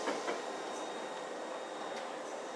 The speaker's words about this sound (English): And there's a Piccadilly Line train behind me.